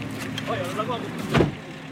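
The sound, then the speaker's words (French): A car pulls up and stops at an organic farm in Tahiti, its low engine rumble running steadily under talking before a brief louder swell as it halts. “La voiture s'arrête dans la ferme bio de Jean-Baptiste Tavanaï.”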